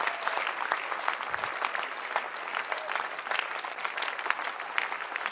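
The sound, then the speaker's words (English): An audience at a religious gathering applauds with many sharp, irregular hand claps that blend into a lively, continuous patter of even loudness throughout. “Clap your hands for the Basenta leader.”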